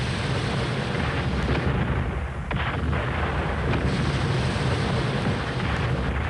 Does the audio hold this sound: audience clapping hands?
no